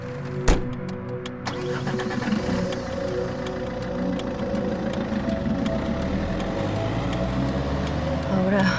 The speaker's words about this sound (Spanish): estoy manejando y el cielo está nublado. Y mientras me dirijo hacia el parque